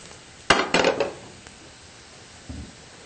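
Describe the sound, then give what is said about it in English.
A frying pan with oil is shifted around on a stove so the oil reaches each piece of food. There is a sharp metallic clank, a short rattling scrape, then a quieter knock near the end. “what I like to do is move the pan around to make sure the oil hits each piece”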